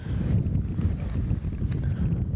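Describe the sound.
Wind blowing through tall grass on a foggy, rocky bluff above the Bay of Fundy, a steady, low rushing roar with gusty rumbling buffets on the microphone, continuous and without talk.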